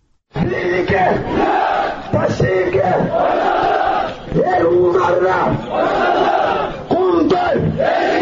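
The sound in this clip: Crowd of protesters at a rally outside regional government offices, many voices shouting and chanting together in loud surging waves that dip briefly and swell again.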